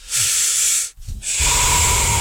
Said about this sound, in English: Take a deep breath.